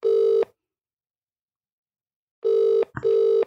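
Ringback tone of an outgoing phone call waiting to be answered. A steady buzzing tone sounds once, then after a two-second silence comes a pair of short bursts in quick succession. The tone plays alone with no talk.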